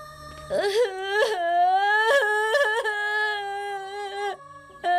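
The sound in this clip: A child cries in long, high, wavering wails with sobbing breaks between them, loud and steady throughout with no clear talk over it.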